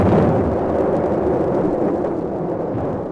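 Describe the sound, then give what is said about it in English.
Ship's guns fire in a naval battle as the vessel approaches a channel, making a continuous heavy rumbling roar with no separate shots standing out, loud throughout and easing slightly toward the end. “An infernal din of guns broke out as we approached the channel.”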